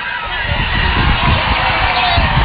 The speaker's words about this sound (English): here's a fan favorite, Nage, getting cheered on by the crowd while crossing the finish line.